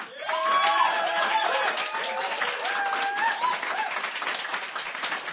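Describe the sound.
Audience applause at a poetry reading: steady, dense clapping from a crowd, with a few whoops and cheers rising over it, holding at an even level throughout.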